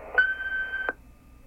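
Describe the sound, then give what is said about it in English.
A single answering machine beep: one steady, mid-pitched electronic tone lasting under a second, with a soft click at its start and another as it cuts off, followed by quiet. “So speak after the beep, and thank you for hanging in there.”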